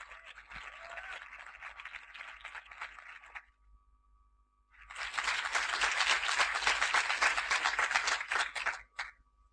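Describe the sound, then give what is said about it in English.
An audience at the Greenbelt festival applauds to welcome a speaker, a professor. A first stretch of steady clapping gives way to a brief lull, then louder, dense applause swells and stops abruptly. “So will you please give her a warm Greenbelt welcome.”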